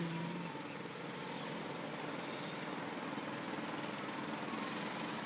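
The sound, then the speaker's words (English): Outdoor construction work, a continuous rattling, jackhammer-like clatter of machinery that stays steady and unbroken throughout. “This is the sound of the people working on construction.”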